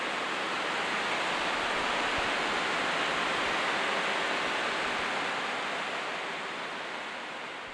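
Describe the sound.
Steady, dense rushing roar of surf on a beach, a broad, constant wash without distinct wave breaks, easing slightly toward the end.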